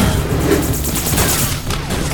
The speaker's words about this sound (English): we're under heavy fire